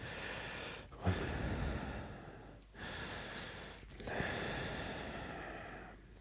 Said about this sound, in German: Alles okay? Ich sag nichts dazu, ich atme nur schwer.